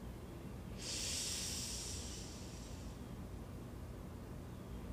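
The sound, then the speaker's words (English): A long, deep breath from a guided breathing exercise: one soft, airy hiss lasting about two seconds over a faint, steady background hiss. “So let's go ahead and take a long, deep inhale. Then we'll hold it and exhale.”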